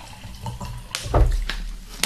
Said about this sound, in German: Ich schenke mal ein bisschen Wasser ein.